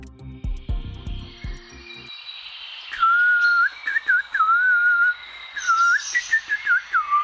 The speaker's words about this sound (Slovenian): V osebni, ptiči izkaznici pa ima zapisano ime Mali rumenonogi Martinec.